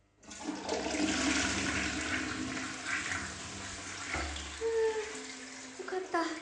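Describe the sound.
A toilet flushing, with a loud, steady rush of water that holds for several seconds and then eases into lighter gurgling and trickling near the end.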